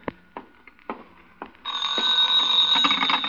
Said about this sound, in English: Nick! That's the phone.